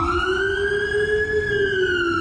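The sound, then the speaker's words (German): An emergency vehicle siren from Poland sounds a loud, steady, wailing tone with bright overtones. It climbs slowly in pitch, then eases slightly back down. “So, dritte Sirene.”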